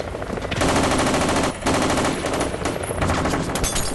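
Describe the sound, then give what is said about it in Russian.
Rapid automatic rifle fire from a foreign action film, a man shooting at a helicopter cockpit. Dense bursts run almost without a break, with one short pause partway through. “Мужчина ловко разворачивается и стреляет из автомата по кабине.”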